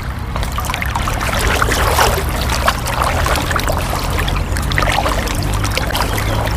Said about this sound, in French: on commence déjà à marcher dans l'eau